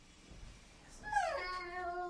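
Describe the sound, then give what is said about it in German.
A cat gives a single loud, drawn-out meow. Its pitch drops and then holds steady, and it stands out clearly over faint background noise. “Das sind Katzen. Das sind ja Katzen. Das ist keine Maus.”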